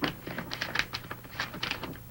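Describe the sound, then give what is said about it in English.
A file folder picked up in a study, a quiet run of soft papery taps, thumps and rustles in quick, uneven succession. “Torrance walks into the study and picks up a file folder.”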